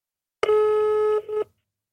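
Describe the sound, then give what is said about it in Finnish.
Telephone tones as a call is dialed: a steady electronic tone held for under a second, then a brief second tone, followed by silence. “mä soitan.”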